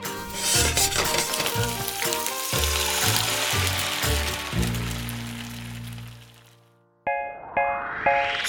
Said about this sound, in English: Woks are great for making a stir fry. That's when you throw a bunch of ingredients in, like veggies and noodles, and fry them all up into a delicious meal.